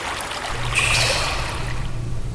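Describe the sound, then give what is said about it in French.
Steady rushing water flowing through the city of Grenoble, a continuous broad, hissing wash that holds an even level throughout, with a low steady hum beneath it. “On n'a pas tout de suite conscience que l'eau passe à ce point dans Grenoble quand on y arrive.”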